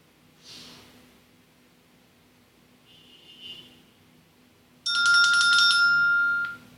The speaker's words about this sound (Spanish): En ese momento va a realizar una llamada telefónica.